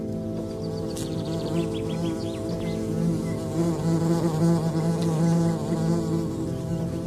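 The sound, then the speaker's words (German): Wasps swarming over a fig beneath a fig tree in a garden in the evening sun make a steady, fairly loud droning buzz with overlapping wingbeat tones throughout. “Die Wespe, die sich der Herr gerade mit seinem Stock vom Leib gehalten hat, gesellt sich zu einem Wespenpulk, der gerade eine Feige unter dem Feigenbaum zerfleischt.”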